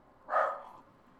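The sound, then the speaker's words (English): A single short dog bark rises out of quiet background noise. It is a mid-pitched, moderately loud burst that fades quickly, with no other barks following. “the new continent's postman just going by. Dogs bark.”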